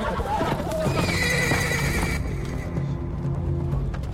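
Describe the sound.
Horses neigh and whinny over continuous clip-clopping hooves as mounted riders pass through a pine forest. The hoofbeats stay loud and dense throughout, and the whinnies rise above them.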